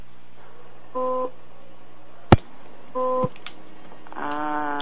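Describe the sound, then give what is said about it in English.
Electronic beeping in a car: two short steady tonal beeps about two seconds apart, a sharp click between them, then a further warbling tone at the end, with no talk. “What's that beeping?”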